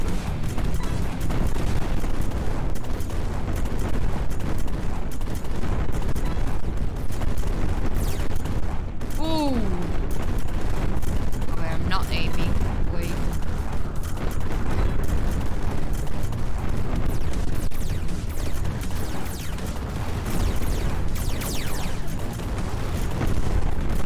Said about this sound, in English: Careful because those grenades are not ours.